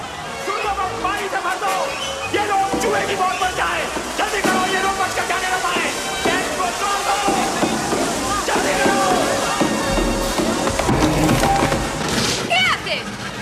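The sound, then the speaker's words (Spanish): A huge water tank in a temple is smashed with large sledgehammers during a mine-cart chase, bringing loud splintering wood and heavy sloshing, pouring water, with voices mixed in. “Mientras, el sacerdote ordena derribar un inmenso depósito de agua. Lo hacen usando grandes mazas.”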